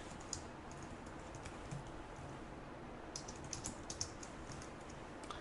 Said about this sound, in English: I'm just going to type in one that I happen to know.